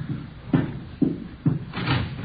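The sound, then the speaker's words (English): Heavy thumps on a door as it is opened: four evenly spaced loud impacts about half a second apart, each a dull booming knock, over a constant low background rumble. “Door's open. Let's have a look.”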